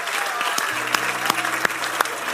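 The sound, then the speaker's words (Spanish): Congregation applauding during a Spanish-language church service, a dense, steady clapping with a few sharper individual claps popping out above the wash throughout. “Dale un aplauso al Señor, esa es su promesa para ti.”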